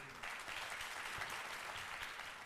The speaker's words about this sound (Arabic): والآن إلى السفراء والسفيرات، السفيرات والسفراء، تعالوا نتعرف عليهم بتصفيق عارم من الجمهور.